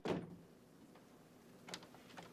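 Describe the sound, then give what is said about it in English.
A door being shut: a single soft thud at the very start, followed by quiet background with a few faint small clicks. “A little mystified, Sam goes out, shutting the door.”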